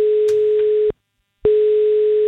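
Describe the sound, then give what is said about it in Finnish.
Telephone ringing tone heard while calling someone: a steady, single-pitched tone in two long bursts separated by a short silent gap, moderately loud with no talk. “Nyt on aika soittaa seuraavalle kisan voittajalle.”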